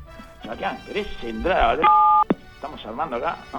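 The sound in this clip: Telephone keypad tones as a number is dialed: a short, steady touch-tone beep sounds between stretches of people talking, with a brief click just after it.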